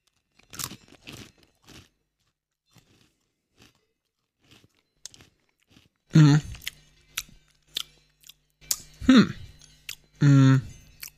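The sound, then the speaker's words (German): Crunchy, noisy chewing of a pretzel: a few crisp crunching bites at the start, then quieter scattered mouth sounds, before voices talk loudly toward the end. “So, wir haben jetzt zu Ende geschmatzt.”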